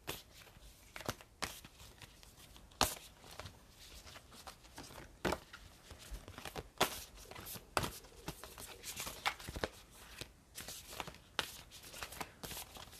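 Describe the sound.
Tarot cards are shuffled and handled in many soft, irregular snaps and papery rustles, fairly faint throughout, with no voices.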